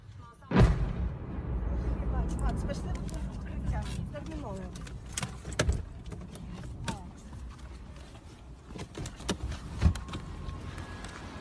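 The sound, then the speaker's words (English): Artillery shelling strikes the Dorohozhychi area of Kyiv: a strong sharp blast near the start and a few weaker thuds later, over a steady rumbling background with people talking. “Значит, Дорогожичи обстреляны, друзья. Дорогожичи обстреляны.”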